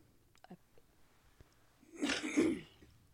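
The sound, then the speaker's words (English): A single wet, productive cough breaks out as a rough, loud burst lasting about half a second, preceded by a few faint clicks and quiet breaths. “That sounded like a good cough. It was productive.”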